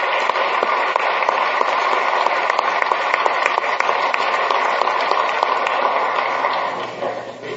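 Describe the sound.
Applause in a South Dakota legislative chamber welcomes a visiting doctor seated in the gallery. A dense, even wash of clapping from many members holds steady for several seconds, then softens and trails off toward the end.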